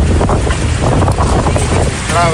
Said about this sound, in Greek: Η περιοχή πνέουν άνεμη έντασης 8 μποφόρ.